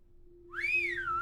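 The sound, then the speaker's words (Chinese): A single piercing whistle blown hard through fingers curled in the mouth swoops up and then slides back down over under a second, with a low, steady hum underneath. “圣诞老人将手指圈在口中，用力地吹响口哨”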